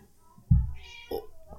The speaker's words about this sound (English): The cat is here.